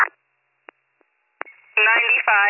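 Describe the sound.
Telephone keypad tones as a call is placed: a few short beeps at uneven intervals, one of them faint, then a brief steady tone before a voice starts talking.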